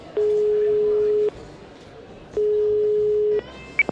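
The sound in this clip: Two long, steady ringing tones sound as a telephone call is placed, each lasting about a second, with a pause between them. A couple of short clicks follow at the end, over a noisy background.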